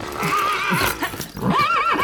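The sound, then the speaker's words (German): Horses on a group ride in a horse trek: loud, warbling whinnies, the strongest near the end, mixed with hoofbeats. “Es ist ein richtiger Pferdetreck, wie in einem Wildwestfilm.”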